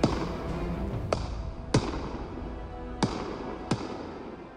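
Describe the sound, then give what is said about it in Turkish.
Fireworks bursting, watched from a balcony: four sharp, bright cracks spaced a second or so apart stand out above a steady, hissing background. “Balkondan havai fişekleri izliyorlar.”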